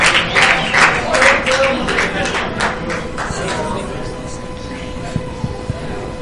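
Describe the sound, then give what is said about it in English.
An audience applauds, with a dense burst of hand clapping that rises quickly and then thins out and fades after about three seconds, leaving scattered voices. “Just give them a hand.”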